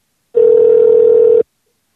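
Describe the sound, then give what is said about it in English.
A single ringback tone from an outgoing telephone call: one steady, mid-pitched tone lasting about a second, then silence. “Can you call back and see if we can get this guy to answer?”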